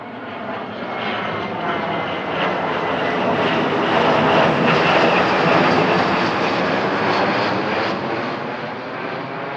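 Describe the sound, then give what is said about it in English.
Airplane engines drone steadily on the ground before takeoff, a dense, continuous roar that swells slightly midway and then holds level with no break or talk. “Make sure all seats are in the upright position and trays are put away before we take off.”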